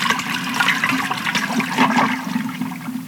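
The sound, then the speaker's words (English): Rushing water from a flushing toilet, a loud and steady gurgling wash that runs through the whole clip with no voices. “A double flush.”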